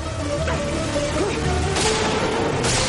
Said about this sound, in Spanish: Los tiros impactan en el parabrisas.